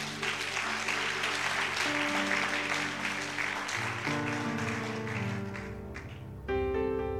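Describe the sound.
A church audience applauding, a sustained burst of dense clapping that carries on throughout, with tonal sounds sitting beneath it.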